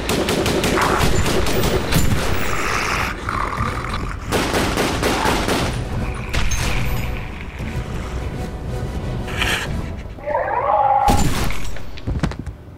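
Loud gunfire from guns being shot in a fight at a stairwell door erupts in repeated bursts and rapid volleys, harsh cracks stacking over one another with short lulls between, and no talk.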